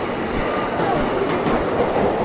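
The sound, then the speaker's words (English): A train rolls along the tracks, heading in the opposite direction in a large, busy station with many tracks. It makes a steady, loud rumble and clatter of wheels, and a high squeal threads through it. “That's our train going in the other direction.”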